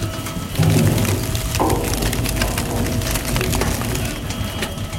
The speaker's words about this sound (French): Et donc, elle est mise au moulin où elle est broyée. Le jus coule, il est récupéré dans un petit bac, il est pompé là.